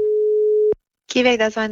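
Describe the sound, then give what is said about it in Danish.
A telephone ringing tone sounds while a call is placed: one steady, low-pitched tone lasting under a second, then a short silence before a voice starts talking. “Vi må ta en telefon til en ansatt hos Kiwi.”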